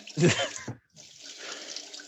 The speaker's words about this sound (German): Spült. Wie lange spült man so einen Brokkoli ab?